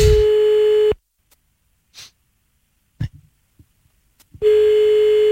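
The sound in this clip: Ringback tone of an outgoing telephone call: two long, steady, mid-pitched tones separated by a few seconds of near-silence, with faint small noises in the gap.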